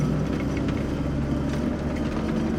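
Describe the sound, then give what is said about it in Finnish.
A steady low engine rumble from a bus near the end of its journey. The deep drone stays constant and dense, with no voices over it. “Matka on nyt loppusuoralla ja linja-auto alkaa vähitellen pysähtyä.”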